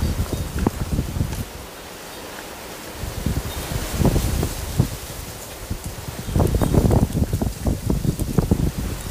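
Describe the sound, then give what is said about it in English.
Wind blowing outdoors, gusting and buffeting the microphone in rough, uneven surges that dip briefly and then swell stronger toward the end. “It's okay, the wind wanted us to be stuck out here with it.”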